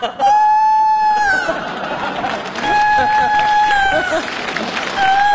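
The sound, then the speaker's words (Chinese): A rooster crows in a comedy scene, giving two long, sustained crows and the start of a third, loud and clear over people talking and busy background noise. “这咋还打鸣呢？”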